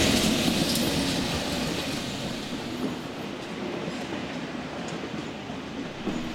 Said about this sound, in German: So, auf jeden Fall der ICE nach Berlin, Planstadt abgefahren, wunderbar.